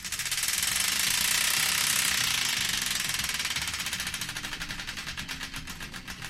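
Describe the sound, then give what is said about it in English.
Wheel of Destiny spun on a radio show: a fast rattle of ratcheting clicks over a bright hiss, the clicks gradually spacing out and slowing toward the end. “The Wheel of Destiny is here ready to be spun, so without further ado, let's spin it and find out the song that's kicking things off”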